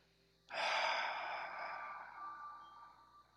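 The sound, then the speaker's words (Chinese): A deep breath released in one long, breathy exhale during a guided Reiki breathing exercise. It starts abruptly, then fades slowly over about three seconds, with no talking. “再一次深呼吸。吸饱吸满，吐深吐。”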